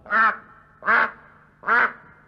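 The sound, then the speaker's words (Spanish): Duck quacking: three loud, nasal, harsh quacks, each about a third of a second long and spaced evenly, with quiet gaps between them and no talk. “Pero acertó a pasar por allí el señor pato.”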